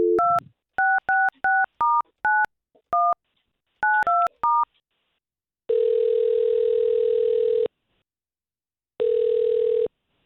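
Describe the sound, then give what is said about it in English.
Touch-tone keypad beeps as a telephone number is dialled: a quick, uneven run of short two-tone blips, then two long, steady ringing tones with a silent gap between them. “All right, so we have this lady's number, Jennifer, and let's see if we can't get her on the line.”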